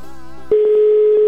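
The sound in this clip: A telephone line tone sounds while a call is dialed, a single steady mid-pitched tone that starts abruptly partway through and holds without a break.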